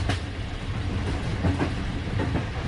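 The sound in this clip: A crowded morning passenger train riding on the rails: a steady low rumble with rhythmic clickety-clack beats running through it, loud and continuous, with no talk.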